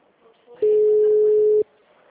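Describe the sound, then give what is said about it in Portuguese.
A phone call's ringing tone sounds while a number is dialed: a single steady mid-pitched tone lasting about one second, with faint background noise before and after. “Esse aqui chamou, né? Tá discando. Tento ligar duas vezes.”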